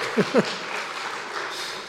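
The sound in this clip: A church audience applauds during a Sunday service, a steady, even patter of many hands clapping, with a brief voice heard at the start.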